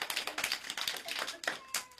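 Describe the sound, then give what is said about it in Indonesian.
Scattered hand claps from an audience at a stage event where children perform, sparse and irregular, quiet, with individual sharp claps separated by short gaps. “Mana tepuk tangannya, kurang semangat.”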